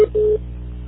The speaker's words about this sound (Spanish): Ahora grabe su mensaje después del tono.